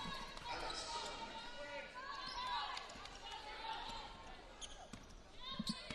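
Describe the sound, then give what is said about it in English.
A basketball bounces out of play during a women's college game between BYU and Wake Forest after it is dribbled off a player's foot. A few bounces sound under continuous talk and background crowd noise. “Woolston can't handle the double team, dribbles it off her foot, and out of play right in front of the Wake Forest bench.”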